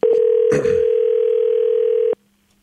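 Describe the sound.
Telephone ringback tone on an outgoing call: a single steady, loud mid-pitched tone lasting about two seconds, marked by a brief rustling burst near its start, then cutting off abruptly into silence.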